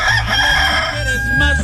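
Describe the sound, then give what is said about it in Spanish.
A rooster crows in one loud, sustained, harmonic cock-a-doodle-doo that fills the moment with a hoarse, strained edge. “Ay, ay, ay, ahí está el gallito, está que... Este ya no canta para que se levante usted, si no está cantando de hambre.”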